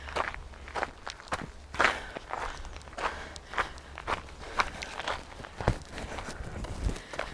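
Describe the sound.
Footsteps walking down a hill between hill-running intervals, many irregular soft crunching steps at a steady pace, fairly faint over a low rumble.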